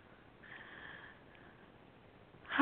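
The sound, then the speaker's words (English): A single soft, deep breath drawn in through the nose, filling the belly. The breath is faint and airy, lasts about a second and is heard alone without talk. “take a big, deep belly breath and fill the abdomen.”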